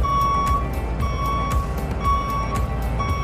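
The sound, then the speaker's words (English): Vehicle reversing beeps during parking: a steady high-pitched tone pulsing on and off in a regular rhythm over a constant low engine rumble. “I'm going to wait until that parking noise stops.”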